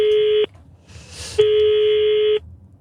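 Telephone tones sound as a number is dialed: two long, steady, mid-pitched electronic tones about a second each, separated by a short burst of soft hiss, with no voices.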